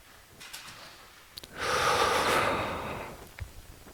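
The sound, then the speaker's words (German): A single long breath out during a guided breathing exercise makes a breathy rush that swells quickly, holds and then slowly fades. A few faint clicks sound before and after it, with no voices. “halten kurz die Luft, atmen wieder aus, halten kurz die Luft.”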